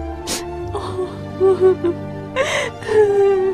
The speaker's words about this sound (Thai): เมื่อไรเนี่ยเจ้าจะเลิกร้องไห้เนี่ย มเหสีเนี่ยไปอยู่ตำหนักเล็กเป็นเดือนแล้วนะนี่ยังร้องอยู่อีก